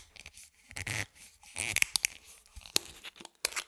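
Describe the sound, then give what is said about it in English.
A screw cap is twisted open on a spirits bottle, giving a few faint, irregular bursts of crisp crackling and clicking as the seal breaks, with brief quiet gaps between them and no talk. “So let's go ahead and crack it open. Here's the screw cap.”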